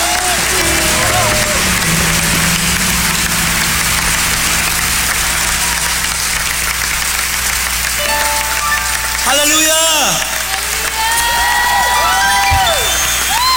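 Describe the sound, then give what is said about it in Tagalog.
Loud, sustained applause from a church audience clapping for the Lord, a dense rain-like roar of hands with raised voices calling out over it toward the end. “Sige nga, palakpakan natin ang malakas ang Panginoon.”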